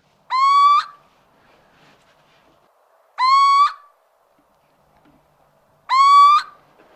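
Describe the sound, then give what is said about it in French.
Little owl calls: three clear, tonal, slightly rising hoots, evenly spaced and loud, each about half a second long, with silence between them. The little owl is a very small grey owl spotted with white. “Donc la première, c'est la chouette chevêche d'Athéna.”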